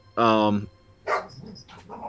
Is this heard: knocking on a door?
no